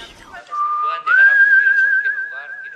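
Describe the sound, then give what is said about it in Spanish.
Someone whistles a single clear tone that holds steady for about half a second, then steps up to a higher pitch and sustains it to the end. “Silbido.”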